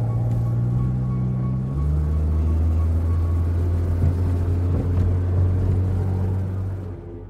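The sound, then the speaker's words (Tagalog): A car engine runs with a steady, low droning rumble that holds throughout. Its tone shifts once early on, and the sound eases slightly at the very end. “Pinaandar ko ulit ang kotse ko.”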